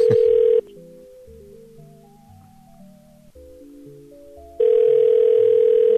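Ringing tone of an unanswered telephone call: a loud, steady electronic tone at the start and again at the end, with quieter melodic tones in between.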